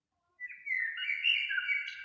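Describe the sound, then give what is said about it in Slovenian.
A small fledgling bird that is still learning to fly chirps in a thin, high, faint and almost unbroken stream of tweets after a brief silence. “Zasleduješ majhnega ptička, ki se še uči leteti.”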